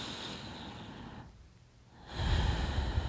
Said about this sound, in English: Continue to breathe nice and deep in